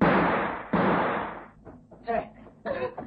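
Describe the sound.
A small gun fires twice in a radio drama, two sharp reports close together, each decaying quickly before people start talking.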